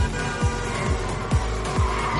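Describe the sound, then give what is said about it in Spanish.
Street race cars start and speed down a straight: continuous roaring engine noise, with several quick pass-bys that each sweep downward in pitch. “Los corredores inician la carrera. Los coches avanzan por una recta.”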